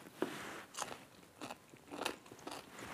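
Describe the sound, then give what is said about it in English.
Crisp biting and chewing of a homemade dill pickle with spicy chili pepper during a taste test. Several faint crunches come at a steady, unhurried pace, with soft chewing between them and no talk. “Time for a taste test.”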